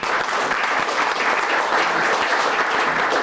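Applause welcomes a guest back to testify before a State Affairs committee at a legislative session in Juneau, a steady, continuous clapping that fills the whole stretch.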